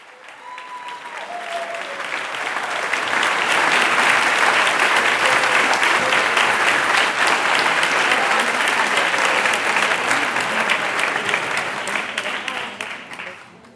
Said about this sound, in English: you with the celebratory sounds of American artist Carolee Schneemann accepting the Golden Lion for Lifetime Achievement